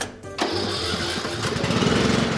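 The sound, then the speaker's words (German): A self-built vehicle's small engine starts with a turn of the key, choke pulled for a richer fuel mixture. A brief cranking sound catches sharply and settles into a loud, steady, buzzing idle with a rough putter, like a lawn mower. “Und dann startet Elia den Motor von seinem, hey, selbstgebauten Fahrzeug.”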